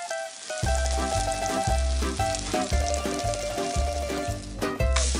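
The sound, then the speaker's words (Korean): A clam and chive flour batter sizzles as it pan-fries. A loud, steady crackle continues throughout without a break. “Clam and chives are mixed into a flour batter, then pan-fried until golden brown.”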